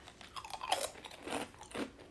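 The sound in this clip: Crunchy bites and chewing of a swirl-shaped karinto, a light, crisp, mildly sweet fried dough snack. Several faint crackling crunches come in irregular succession with no talk.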